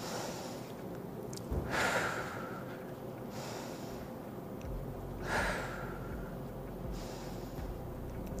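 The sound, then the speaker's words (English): Slow, deep breaths during a guided breathing exercise: faint, airy inhales and exhales that swell and fade at even intervals, with no voices. “now take last 3 deep breaths.”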